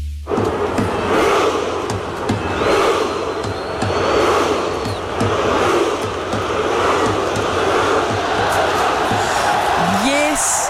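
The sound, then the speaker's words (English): The Norwegian football team and fans do the Viking row chant to celebrate a FIFA World Cup win over Brazil. Many regularly spaced shouted beats rise loudly from the crowd din. “That is the sound of the Norwegian football team and its fans doing the Viking row to celebrate Norway's win over Brazil at the FIFA World Cup. The synchronised rowing chant that accompanies the Norwegian football team's appearances”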